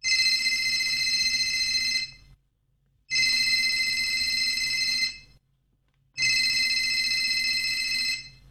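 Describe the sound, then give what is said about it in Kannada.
A phone rings with an incoming call in three even bursts of about two seconds each. Each burst is a bright, high electronic trill, with short silences between them and no talk. “ಮಾವನ್ ಕರೆ ಬಂತು.”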